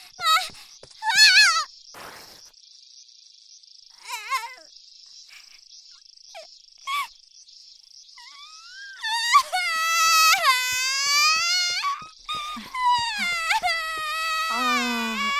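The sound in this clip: A young boy crying after getting hurt: a few short whimpering sobs at first, then loud, sustained, wavering wails through the second half.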